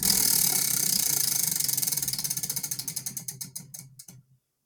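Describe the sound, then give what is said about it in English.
A spinning wheel ratchets fast, its clicks blurring together at first, then slowing and spreading out one by one as it loses speed, before stopping abruptly after about four seconds. “All right, spin the wheel. You guys ready? Yeah. Spin that motherfucker.”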